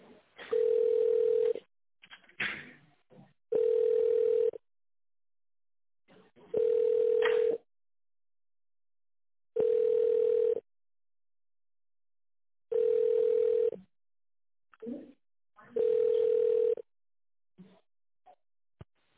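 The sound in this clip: Telephone ringback tone while an office call is being transferred: six steady, mid-pitched tones spaced about three seconds apart, with faint muffled sounds in the gaps between them.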